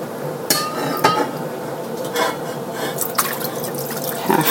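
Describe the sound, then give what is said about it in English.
Liquid poured into a large, heavy roasting pan, heard as a few scattered splashes and drips with light metallic clinks, fairly quiet against a soft background and with no talking. “Pouring it into this roasting pan, and I would say that it's about”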